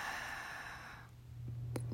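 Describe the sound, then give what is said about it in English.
A deep breath is let out in one long, soft, airy exhale lasting about a second, faint and alone, then fades into a low steady hum. “Take a deep breath. Exhale.”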